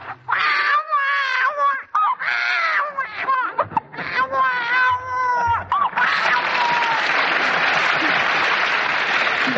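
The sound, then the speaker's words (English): A voice imitates the cries of a 2 or 3 month old baby in a few wavering, strained wails. These give way to a long, steady wash of applause. “Now, a 2 or 3 months old baby sounds less strangled because it's able to get more wind into its lungs. Its cries are a little louder, like this.”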